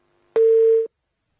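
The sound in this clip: A telephone busy tone sounds after a caller's line is cut off: one clean, steady low-pitched beep lasting about half a second, alone and followed by silence.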